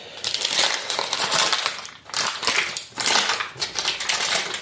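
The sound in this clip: Kitchen utensils clattering during cooking with bacon and onions: dense rattling and crunching clatter coming in a few loud waves, with no talk.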